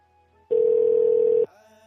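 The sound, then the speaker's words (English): A telephone sounds for an incoming call from a blocked number as a single loud, steady electronic tone of about one second that stops cleanly, with quiet before and after. “Someone's trying to call me. Yeah, he blocked his number and he's trying to call me”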